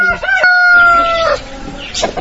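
A rooster crows once, long and loud, in a sunny courtyard where women work at crafts among chickens, dogs and small children; brief clucking from the chickens follows.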